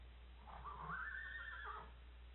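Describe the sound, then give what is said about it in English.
A fresh horse gives a single whinny that rises, holds, then drops off. It sounds faint and thin over a low steady hum. “Get that horse back. He's fresh.”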